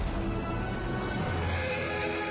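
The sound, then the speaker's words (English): A horse neighs in the War Horse film trailer, its whinny set within a dense, loud, unbroken wash of background sound. “This horse can pull through anything.”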